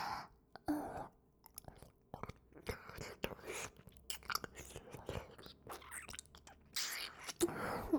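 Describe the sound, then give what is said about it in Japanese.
Close-up licking of an ear: many irregular, soft, wet smacks and clicks, with faint breathy whispering between them. “何って、耳を舐めてるの？”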